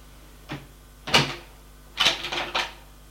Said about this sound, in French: Une fois dans sa chambre, elle va ouvrir son armoire.